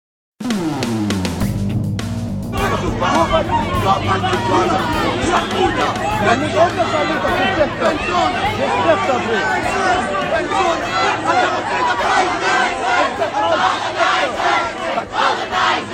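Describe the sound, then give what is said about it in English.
A protest crowd at Concordia University in Montreal erupts into loud, chaotic shouting and chanting. Many voices overlap in a continuous, agitated din that holds for the whole stretch. “Those are the disturbing sounds of a protest at Concordia University in Montreal.”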